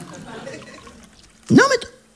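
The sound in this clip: A drink is poured into a glass in one short splashing burst whose pitch rises as it fills, following quiet talk.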